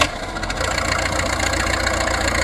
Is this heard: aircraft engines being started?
yes